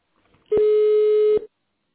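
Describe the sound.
A single steady telephone tone, under a second long, sounds alone as an extension number is dialed on a call to a construction company's phone line.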